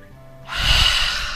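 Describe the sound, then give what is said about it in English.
A deep breath, taken with everyone joining in, sounds as a broad, airy rushing hiss. It starts about a third of the way in and holds steady and fairly loud to the end, with no talking. “everyone, all together, deep breath in”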